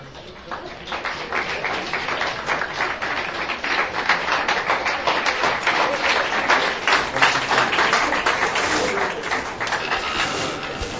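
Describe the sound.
An audience applauds to welcome a speaker. Dense, steady clapping runs throughout, swelling slightly toward the middle before easing off a little.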